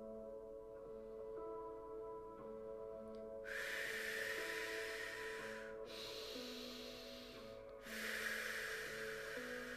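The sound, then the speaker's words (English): Powerful breathwork exhales: three long, forceful, airy breaths, each a few seconds, rushing out in turn over a soft, steady musical drone. “imagine yourself releasing it through these powerful breaths, like you're purging it from your system.”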